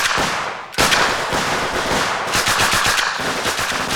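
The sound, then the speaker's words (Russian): Automatic gunfire rings out in a war-film battle scene as a soldier fires through a window opening. Rapid, loud bursts of shots follow one another almost without a pause. “Поставив рацию, Травкин подбегает к окну. Целясь, стреляет через проем.”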